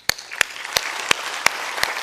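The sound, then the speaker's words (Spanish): A church audience claps in a steady rhythm at a Spanish-language service. Six sharp, evenly spaced claps ring out over a continuous wash of noise. “Vamos a darle un aplauso al Señor, ayúdeme.”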